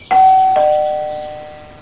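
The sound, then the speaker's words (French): Doorbell at a front door chiming a two-note ding-dong. A higher tone is struck first, then a lower one, and the chime rings out in a long, fading decay with no voices. “mon prof est allé sonner à la porte.”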